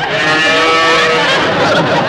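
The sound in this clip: A cow moos loudly and without a break, a dense, rough, harmonic lowing that holds steady for about two seconds.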